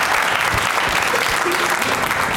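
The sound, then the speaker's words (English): Clapping from a group of hands runs continuously and fairly loud for about two and a half seconds, a busy, uneven patter with no clear individual claps standing out. “Clap.”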